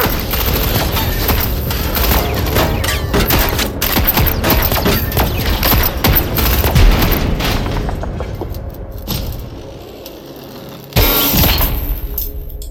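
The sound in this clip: Heavy gunfire in a dramatic action scene where people shoot at robots. Dense, rapid bursts of shots and booms fill about eight seconds, a quieter stretch follows, and then a fresh loud burst of fire breaks out near the end.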